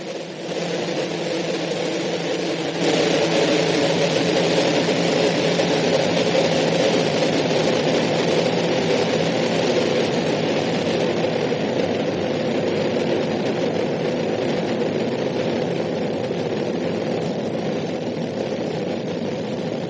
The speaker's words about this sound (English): We have main engine start. America's first space shuttle. And the shuttle has cleared the tower.